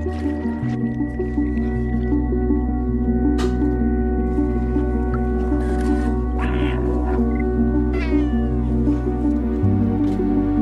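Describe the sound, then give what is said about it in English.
A cat meows a few times and purrs in a video game trailer, over a steady, sustained tonal drone that runs through the whole passage. “Did that purr? Yeah. Why are people running from the cat?”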